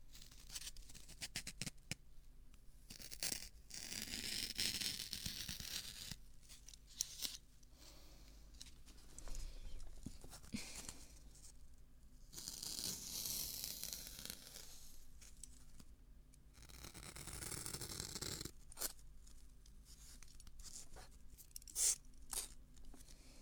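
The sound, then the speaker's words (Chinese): Razor shaving on a first pass, with continuous faint, scratchy scraping strokes that come in long rasping runs broken by a few short gaps. “剃须刀来剃第一次。”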